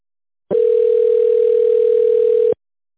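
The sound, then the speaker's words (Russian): A telephone tone as a call is being connected and transferred: one steady, mid-pitched electronic beep lasting about two seconds, loud and even, starting and stopping abruptly with silence on either side. “Так, одну секунду, сейчас соединю вас, зовут Максим.”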